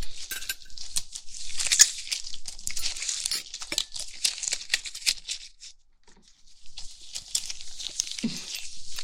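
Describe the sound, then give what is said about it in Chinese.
An animal's belly, already cut open, is torn apart by hand, both sides pulled outward. Continuous crinkly, ripping rustles come in uneven bursts, with a brief pause partway through. “两只手一边握住一边往两边撕开”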